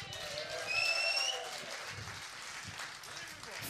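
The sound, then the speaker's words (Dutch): An audience applauding at a jazz concert: sustained, even clapping that forms a dense wash, with a brief high whistle near the start. “Mag ik ons weer een groot applaus voor Koen Molenaar.”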